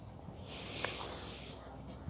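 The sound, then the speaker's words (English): One slow, deep inhale drawn during a guided meditation, a soft, airy hiss of breath that swells and eases over about two seconds and stays faint throughout. “Breathe in.”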